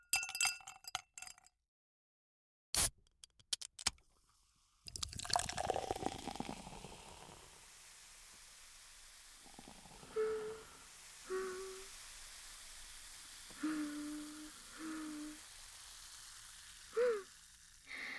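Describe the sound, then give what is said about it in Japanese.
Food is stirred in a pan: a few faint, soft clinks and scrapes spaced apart over a low, quiet sizzle, with a cluster of sharp clicks near the start. “かき混ぜて。いい音。”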